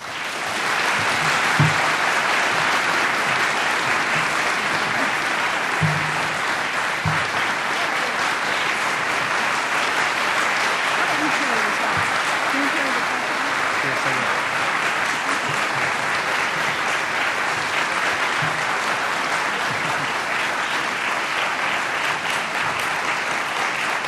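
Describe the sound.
Sustained audience applause welcomes the first winner of a Distinguished Social Sciences Division Alumni Award at an evening event. It is a dense, steady wash of clapping that holds at an even level for about 24 seconds, with no talk over it.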